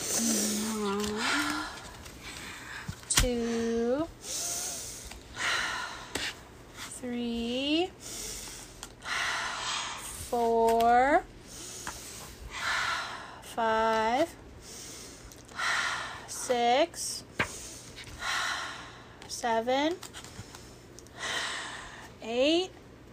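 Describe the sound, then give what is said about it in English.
Slow, deep breaths in and out taken as a calming exercise for anger. Many airy, hissing breaths repeat in a steady rhythm, and a voice speaks briefly between them. “take 10 slow, deep breaths. Breathe in slowly, then breathe out slowly.”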